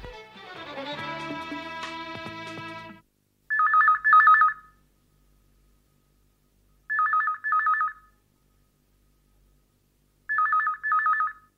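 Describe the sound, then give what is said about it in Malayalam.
A telephone bell ringing in a Malayalam radio drama, coming in three evenly spaced double rings with bright, trilling tones and silence between them, after a short passage of music. “വാ ഇപ്പൊ തന്നെ നമുക്ക് അയാളെ വിളിച്ചു വരട്ടാം എടോ ബെല്ലടിക്കുന്നുണ്ട്”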